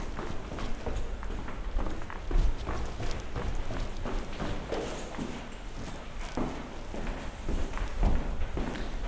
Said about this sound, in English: So I do the same walk every day, going down the stairs.